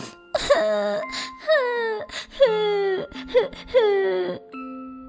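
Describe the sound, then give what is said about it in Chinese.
A coin spirit cries in several drawn-out, wailing sobs, each sliding downward in pitch. Short catches of breath separate the moaning, whimpering bursts. “钱币精灵又哭了起来。”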